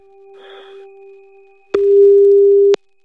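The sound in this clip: Steady low telephone tone from a call ringing with no answer. It is faint at first, then a loud tone holds for about a second and cuts off sharply.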